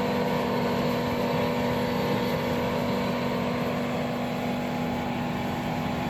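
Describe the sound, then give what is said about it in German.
Steady, loud engine drone from a lawn mower driven and mowing by a five-year-old boy, leaving a straight cutting track; a constant hum with a sustained low tonal whine, unchanging throughout and without talk. “Und jetzt schaut mal, wie er fährt. Wie er mäht.”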